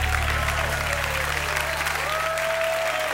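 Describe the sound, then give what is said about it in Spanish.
A church audience gives a round of applause to the King. The clapping is dense and steady throughout, with a faint sustained tone running beneath it. “Dar un aplauso al Rey.”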